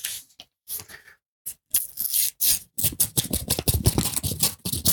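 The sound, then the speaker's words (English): Paper tearing and rustling as a golden envelope is opened, with several short bursts at first, then a denser run of crisp, scratchy tearing. “I'm just going to open the golden envelope”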